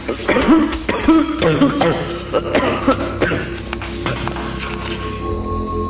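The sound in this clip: A boy has a coughing fit in a dusty cellar, with many loud, harsh coughs coming in quick, uneven succession that trail off toward the end.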